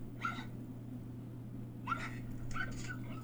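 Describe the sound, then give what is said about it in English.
Faint, hoarse yelping from a debarked dog trying to bark: a few short, breathy bursts that barely rise above a steady low hum. “I wonder if it will play on air the sound of a dog that's been debarked.”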